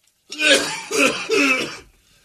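Phlegmy throat clearing mixed with coughing, heard as three loud, raspy, gurgling bursts in quick succession that then fade to quiet.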